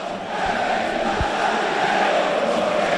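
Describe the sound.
Crowd roar fills El Sardinero football stadium as the stands rise before kickoff, a steady, dense wash of many voices with no sharp peaks.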